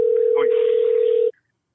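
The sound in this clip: A steady telephone tone sounds from a phone for just over a second and then cuts off abruptly, with a brief voice audible underneath.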